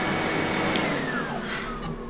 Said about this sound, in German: mach doch mal den Staubsauger aus. Man versteht ja überhaupt nichts.